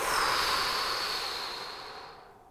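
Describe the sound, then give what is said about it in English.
A big deep breath through the nose and out through the mouth: a loud, airy rush of breath that starts strong and fades steadily over about two and a half seconds. “Big inhale through your nose. Exhale through your mouth.”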